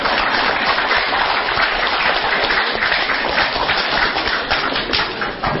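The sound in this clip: Audience clapping, a thick continuous patter of many hands that stays loud and even throughout with no pauses and no talk over it.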